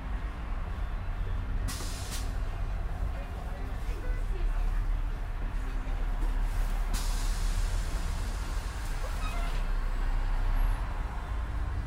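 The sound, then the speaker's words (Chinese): Air brakes hiss as a Beijing route 300 express city bus pulls away from the Madian Bridge East stop. Two sharp bursts of air come over a steady, loud engine rumble. “车辆起步，请扶稳坐好。”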